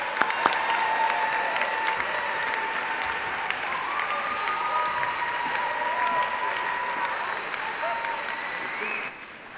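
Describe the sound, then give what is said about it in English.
An audience applauds to welcome guests with dense, sustained clapping that holds at an even level for about nine seconds, then cuts off abruptly near the end. “Would you guys please welcome our guests, Bill Edgar and Ruth Naomi Floyd?”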